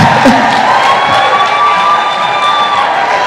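A church audience applauds and cheers for their pastor, a loud, sustained wash of clapping mixed with shouts and whoops that stays dense and even throughout.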